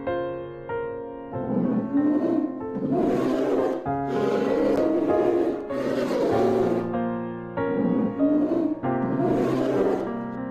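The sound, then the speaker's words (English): A tiger roars in a long run of deep, rumbling bellows and growls that repeat almost without pause, loud and rough throughout. “Tiger.”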